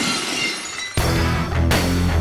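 Glass-shattering sound effect used as a gag for a glass jaw: two loud crashing bursts of breaking glass in quick succession after a quieter noisy opening.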